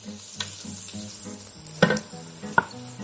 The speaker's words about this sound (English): Add the garlic, give it a nice stir. You want to cook it for about 1-2 minutes until it's nice and fragrant.